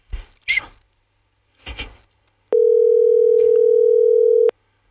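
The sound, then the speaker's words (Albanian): Telephone ringing tone heard while waiting for someone to answer: one loud, steady mid-pitched tone lasting about two seconds, preceded by two short noisy bursts. “Presim zilet e dyta”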